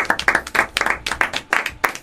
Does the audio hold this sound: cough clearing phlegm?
no